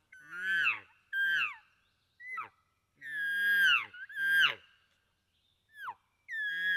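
Cluck Mountain King domeless 2.5 reed game call imitating guttural elk bugles: several short bursts of high, squealing whistles that slide up and down over a rough, low grunting undertone, separated by brief silences.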